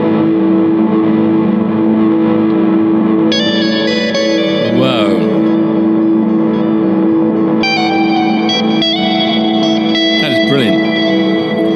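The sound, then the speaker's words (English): Electric guitar chord run through a reverse delay feeding a bit crusher: the chord drones steadily underneath while reversed repeats swell in, and gritty, crushed high tones appear in bursts, giving a harsh, shimmering, distorted wash. “It's the reverse delay. The reverse delay goes into a bit crusher.”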